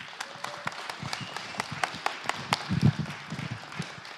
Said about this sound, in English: would you put your hands together and welcome him to the platform